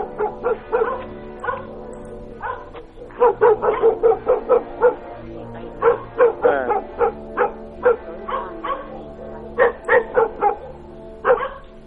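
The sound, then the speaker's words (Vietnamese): A dog barks over and over in many short, sharp yapping bursts mixed with a few whining notes, moderately loud and uneven in rhythm, with no talk. “vẫn thản nhiên sủa, cứ sủa một tràng bâng quơ, rồi lại kết thúc bằng một hồi chu dài dằng dặc, thê lương, rồi chu, rồi sủa.”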